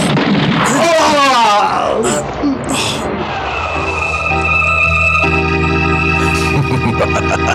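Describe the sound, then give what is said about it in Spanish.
A gunshot in a Spanish-language radio adventure drama: shouting voices lead into a couple of sharp, loud bangs, and then dramatic music with sustained tones takes over. “¿Quién ataca a Calimán? En estas tierras, ¿quién ha podido atacar con un arma de fuego?”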